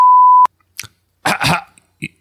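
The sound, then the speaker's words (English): A censor beep: one loud, steady pure tone lasting under half a second, heard alone and followed by brief fragments of voices. “Beep.”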